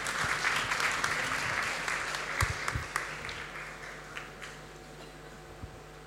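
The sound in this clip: Audience applause follows a talk, starting as dense clapping and gradually thinning out, with a few last isolated claps trailing off before it fades.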